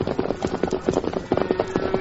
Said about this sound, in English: Cattle stampeding.